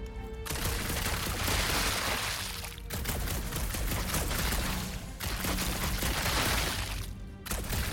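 Rapid weapon gunfire from a video game, dense and loud, running in long sustained bursts broken by a few short pauses.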